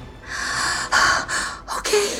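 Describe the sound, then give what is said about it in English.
A woman lets out a deep breath: a few breathy, hissing pushes of air in close succession, fairly loud and heard alone with no talk. “Letting out a deep breath, she said,”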